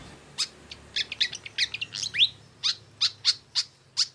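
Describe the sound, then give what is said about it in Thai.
Pied fantail calling in a faint series of high, thin chirping notes, first a quick, irregular cluster, then slower, evenly spaced single notes. “นกที่คุณเอพูดถึงอยู่นี้คือนกอีแพลดแถบอกดำ”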